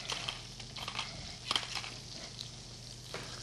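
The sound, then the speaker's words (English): A utensil faintly scrapes and taps as salt and pepper are stirred into a vinaigrette, a few irregular strokes with one sharper clink midway. “I'm going to stir this together. I need to add a little salt and pepper.”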